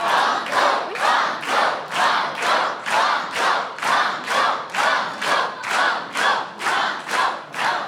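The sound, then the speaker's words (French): A game show audience chants "banco" in unison, many voices shouting the word in a steady rhythm about twice a second, each loud burst separated by a brief gap, with clapping mixed in. “Entendre toutes ces voix chanter banco”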